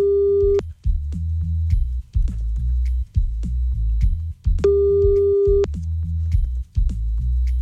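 Telephone ringback tones while calling someone back: two long, steady beeps about four seconds apart over a low, constant rhythmic bed.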